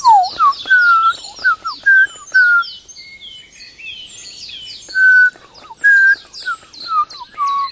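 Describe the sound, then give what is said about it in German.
A Eurasian blackbird sings clear, fluting whistled phrases, each ending in thin, high twittering notes. The phrases come in a series separated by brief pauses, bright and prominent against a quiet background. “hören jetzt vor allem das wunderbare Flöten der Amsel mit ihrem.”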